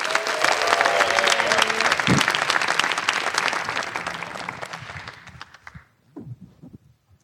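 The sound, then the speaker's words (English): Audience applause welcoming a speaker, dense steady clapping that gradually thins and fades out, followed by a voice starting to speak. “Would you please help me give a warm welcome to Holly George Warren?”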